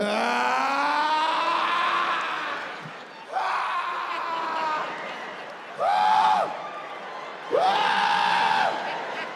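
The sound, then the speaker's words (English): A man imitating loud orgasm groans during a stand-up comedy set: four drawn-out, wavering vocal groans, the last two louder and more strained, with audience noise and laughter underneath. “Why the older you get, the more violent your cum sounds become. When you old and you cum,”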